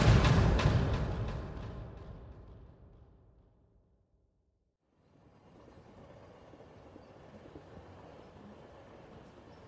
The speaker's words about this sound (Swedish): Tåget rullade ut från perrongen.